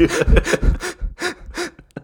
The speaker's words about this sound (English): I'm going to take a bunch of really short, shallow breaths.